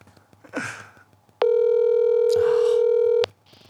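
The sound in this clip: A telephone dial tone plays on speakerphone. The single steady, loud tone lasts about two seconds and stops abruptly, with faint rustling handling noise before and after it.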